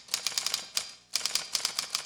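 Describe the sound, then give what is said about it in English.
Typewriter keys clack as a father sits typing in a film scene: a quick run of sharp strikes, a brief pause, then another steady run of keystrokes, heard alone without voices. “it is definitely displayed on the screen as he sits there clacking away on his typewriter.”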